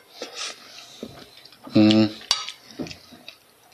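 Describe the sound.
Cutlery scrapes and clinks against a plate during a meal, with brief sharp clicks mixed among mouth sounds and a voice.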